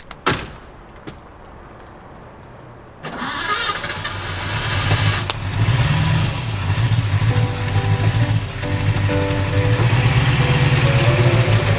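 A new car door clunks, then the engine starts and runs with a steady low hum, revving a few times as the car drives off, with no talking.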